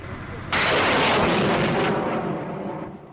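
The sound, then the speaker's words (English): A Soviet-era Grad rocket launcher firing, a sudden loud roaring blast that swells at once and sustains, then slowly fades over a few seconds. “another team are preparing to fire their Grad rocket launcher, another Soviet-era weapon. They're just lining up the Grad rockets now to hit a target.”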